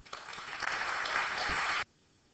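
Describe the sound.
Audience applause welcomes a historian of psychoanalysis to an evening lecture at the Perimeter Institute. A dense, even clatter of clapping lasts nearly two seconds, then cuts off abruptly into near silence.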